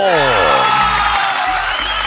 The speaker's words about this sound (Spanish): y eso amerita otro aplauso